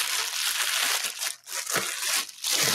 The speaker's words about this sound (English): And you're supposed to take this bag here, get it out of a plastic bag,